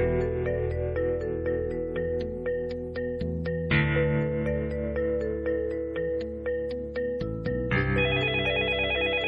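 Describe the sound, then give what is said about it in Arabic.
A telephone rings with an electronic ringtone, sounding many bright, repeated tone bursts in a steady rhythm that runs continuously through the whole clip at an even, fairly loud level. “رد على تليفون”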